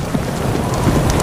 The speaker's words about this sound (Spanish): Enseguida cayó la noche y con ella la tormenta. Tranquila, tranquila, chica. Solo es una tormenta.